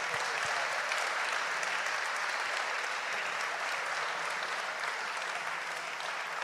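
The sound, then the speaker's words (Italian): Audience applause after closing thanks at a tournament: many hands clap in a dense, steady patter that continues without a break. “Ovviamente gli chiederei un applauso a Domenico Leo, l'organizzatore del torneo, di questo magico torneo.”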